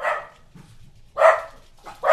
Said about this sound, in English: all these goddamn dogs. All these goddamn dogs.